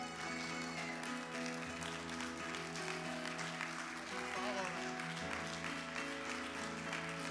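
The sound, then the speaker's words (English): An audience applauds guests as they are welcomed back at an evening church gathering: sustained, even clapping that fills the whole stretch, with steady sustained tones and voices mixed in beneath it. “Let's all give them a hand.”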